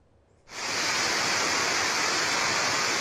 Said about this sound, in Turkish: Hatay'da sağanak yağış sele yol açtı. Antakya ve Defne ilçelerinde su baskınları yaşandı.